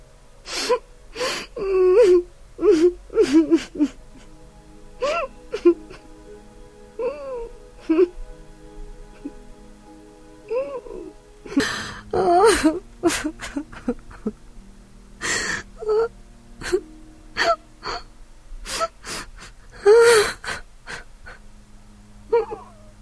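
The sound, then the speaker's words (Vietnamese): A woman and her young daughter crying mournfully at home over the husband and father, with many sobbing bursts, gasps, whimpers and drawn-out wailing moans spread unevenly across the stretch, no words spoken. “Tiếng khóc não nề vang vọng cả nhà.”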